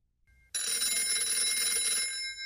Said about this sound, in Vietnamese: Tiếng chuông báo thức kêu lên khi mà đồng hồ chỉ 11 giờ 50 phút như mọi khi.